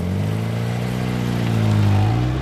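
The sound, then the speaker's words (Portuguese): A car engine hums with a steady low drone as the vehicle departs for a village, its sound swelling slightly toward the end of the two seconds. “Esse carro já tá saindo?”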